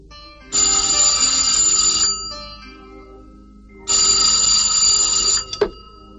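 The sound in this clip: A telephone ringing, two long bursts of a bright, high electronic ring separated by a pause of under two seconds, loud and alone with no talk, followed by a brief click.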